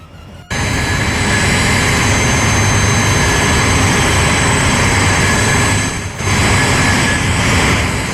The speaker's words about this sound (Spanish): Sonido de avión despegando. A ver, ese.